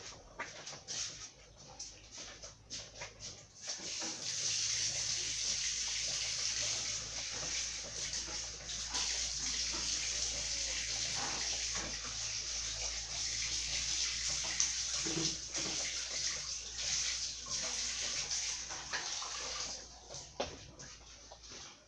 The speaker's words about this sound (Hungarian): Akkor ezt is elmosom, jó?